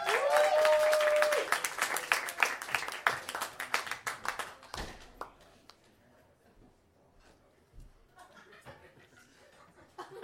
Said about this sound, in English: Ladies and gentlemen, please get some thunderous applause going